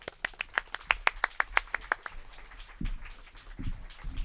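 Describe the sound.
Applause welcomes a storyteller to the stage at a 2017 storytelling festival: a quick burst of rapid, crisp claps lasting about two seconds, then falling silent.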